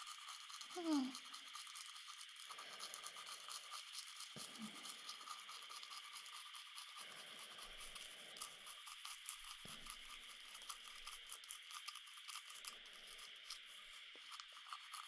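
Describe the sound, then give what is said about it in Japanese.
A toothbrush scrubs the teeth, pressed against their inner surfaces, giving a soft, rapid, continuous bristle scratching throughout. A voice speaks quietly in short phrases underneath. “歯の内側に歯ブラシを当てるように。”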